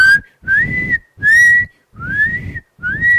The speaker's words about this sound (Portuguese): Aí vai a criancinha de 5 anos, aprende a assobiar.